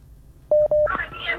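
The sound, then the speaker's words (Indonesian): Telephone keypad tones sound as a call is redialed: two short, steady, clear beeps, followed by a brief voice. “Menelpon ulang ya”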